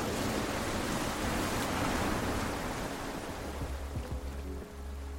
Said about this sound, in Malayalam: ഒരുപക്ഷെ ഇതുപോലെ ഒരു കടൽ തീരത്ത് നിൽക്കുമ്പോഴെങ്കിലും